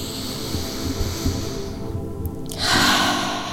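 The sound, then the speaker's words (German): A single deep inhalation during a guided breathing exercise: a soft, airy rush of breath rising out of faint background hiss and lasting about a second near the end. “atme es ein, atme es tief, tief ein.”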